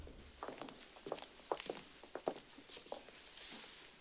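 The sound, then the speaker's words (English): Two people walk up to a judge's bench in a courtroom, their footsteps soft and faint in a quick, slightly irregular series. “Tom Krasny and Teddy walk to the judge's bench.”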